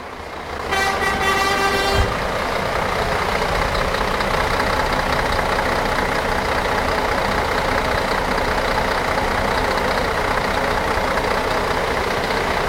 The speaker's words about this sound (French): Voilà, c'était le bruit d'un pot d'échappement de tourbus de groupe de métal allemand.